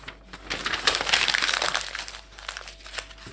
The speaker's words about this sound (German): So, und es geht alles da rein, es muss schon ein bisschen stopfen. Ich hätte einen größeren Topf nehmen sollen.